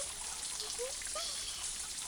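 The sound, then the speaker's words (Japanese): Hair being washed and scrubbed, heard as faint trickling water: a soft, continuous wash with a few brief, higher gurgles. “でも人に髪の毛洗ってもらうのってすごく気持ちいいんだよね。”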